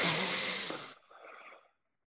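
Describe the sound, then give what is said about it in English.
Deep breath in during a guided breathing exercise: one long, airy inhale that starts full and strong, then thins and tapers away into silence. “We're going to take three deep breaths here. Close your eyes. Take a deep breath in.”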